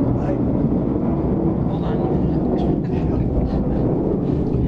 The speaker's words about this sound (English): I think that's the airplane. That's the sound of freedom right there.